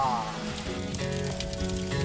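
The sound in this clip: Loud, steady sizzling as fish goes into hot sauce in a large pan during festival cooking. The frying hiss holds without a break for the whole stretch.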